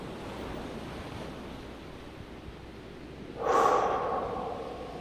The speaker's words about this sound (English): Once you find your position, let's start with three deep breaths.